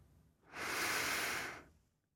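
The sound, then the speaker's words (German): A single slow exhale after the lungs fill: a soft, airy breath that swells over about a second, holds, then fades, alone in quiet. “Und wenn sich Ihre Lungenflügel gefüllt haben, lassen Sie den Atem wieder gehen.”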